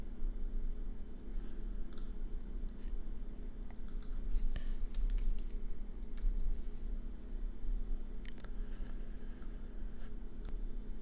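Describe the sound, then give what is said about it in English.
Faint typing on a computer keyboard: irregular light clicks, sometimes in quick bursts, over a steady low hum. “So I might make some errors in terms of which keyboard I'm typing on as we go here.”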